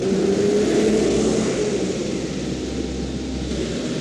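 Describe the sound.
A car being driven around, giving a steady, continuous engine and road rumble with a low hum underneath and broad noise on top, with no talk.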